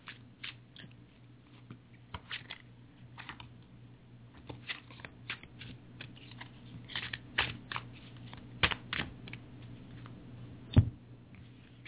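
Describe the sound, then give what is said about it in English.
Tarot cards shuffled and drawn for a reading, many soft flicks, riffles and taps over a low steady hum, with one sharper snap near the end. “Let's see if there's another card that can illuminate this a little bit.”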